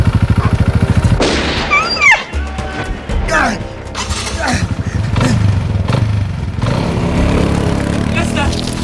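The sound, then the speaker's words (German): A man on a quad bike races straight towards the listeners: a loud, rasping, pulsing engine at the start, then people talk over continuing noise. “Ein Motorrad? Nein, ein Mann auf einem Quad. Der rast direkt auf uns zu.”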